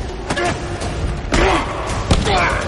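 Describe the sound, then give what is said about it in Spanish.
Heavy thuds as a person is grabbed by the neck and shoved against a wall in a fight scene from a 2014 science-fiction action film. A few sharp impacts stand out over loud, continuous dense sound with voices. “La agarra del cuello y la empuja contra una pared.”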